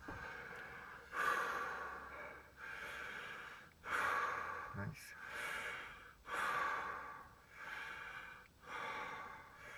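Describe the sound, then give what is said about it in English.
Deep, rhythmic breathing from a guided breathing exercise: many strong, airy breaths repeat at a steady pace of roughly one every second or so, over a low, constant tone. “Breathe in deep, let go.”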